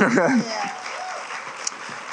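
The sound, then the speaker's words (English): Audience applause rises as steady, dense clapping after a brief moment of speech at the start, then continues evenly to the end. “Amen. Amen. You can clap.”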